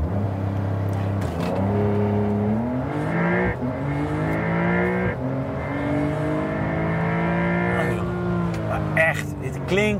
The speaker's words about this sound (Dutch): we hebben nu waterkoeling, twee turbo's. Zal ik even launch control doen?